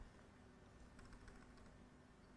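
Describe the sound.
Soft clicking of typing on a computer keyboard, faint and quick keystrokes against a steady hiss, with no voices.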